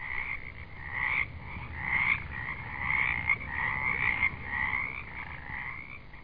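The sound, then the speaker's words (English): Frogs croak in a continuous chorus of high, buzzing trills that pulse and overlap steadily, with gentle swells in loudness throughout and no voices. “And you can fall asleep to those frogs every night like we do.”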